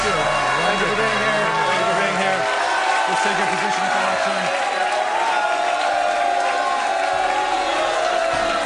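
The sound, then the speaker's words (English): Debate audience booing a candidate, a loud, sustained crowd roar of many voices that does not let up, with someone speaking over it. “Mr. Trump, we're not going to eject anyone from the audience just for booing you.”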